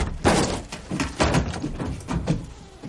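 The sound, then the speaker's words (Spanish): A car door opening in a thriller film scene: a few dull thumps and rattling knocks at moderate loudness, with faint shuffling noise between them. “Abre la puerta de Rey. Sala. Eso es. Rey baja. Entran en la caseta.”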